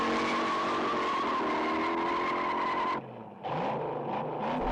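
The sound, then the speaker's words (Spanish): Car tires squeal loudly as the car burns rubber on San Francisco streets in a 1968 car-chase scene. The sustained, shrill squeal rides over a roaring engine, briefly dips near the end, then surges back. “Haciendo ruedas. Quemando ruedas por las calles de San Francisco.”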